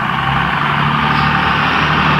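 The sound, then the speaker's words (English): A diesel truck engine runs with a steady, loud, low rumble and a broad hiss above it, unchanging throughout, with no talk. “Maybe it's that's a diesel truck.”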